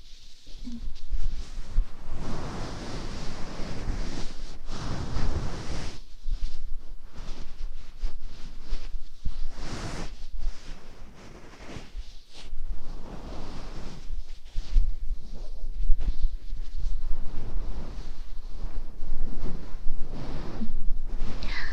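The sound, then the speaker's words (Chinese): Heavy rain pours in a steady, dense hiss that fills the whole clip, with brief dips and surges in loudness and a low rumbling underneath; no voices are heard. “下了那么大的雨，您都特地过来。”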